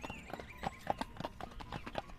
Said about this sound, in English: he was a very merry gray pony, and he loved to go clippity-clippity-clop.